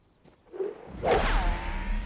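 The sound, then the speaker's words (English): A golf club swings at a ball off the tee. A soft swish comes first, then a sharp crack of impact, then a whistling tone that slides downward over a steady noise bed. “At the tee, Happy steps up to the ball and swings.”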